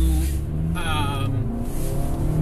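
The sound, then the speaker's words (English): Road traffic passes with a steady, full low rumble of vehicles, while a man talks over it throughout. “excuse me while I jump out in the traffic here.”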